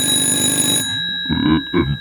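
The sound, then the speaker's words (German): A telephone rings with a steady, bright, bell-like electronic tone that lasts under a second and then cuts off abruptly, leaving quieter, uneven sounds afterward. “Moment mal, bitte. Ja. Ich muss da gerade mal rangehen.”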